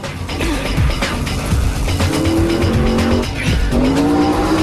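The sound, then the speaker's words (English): A car skidding out of control on a freeway, its engine roaring under two drawn-out, high tire squeals, one midway and one near the end, with no voices. “The vamp car speeds out of control, hits the central reservation, spins onto its back, and slides along the freeway before coming to an abrupt rest and crumpling against a concrete pillar.”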